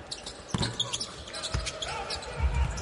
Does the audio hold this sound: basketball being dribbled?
yes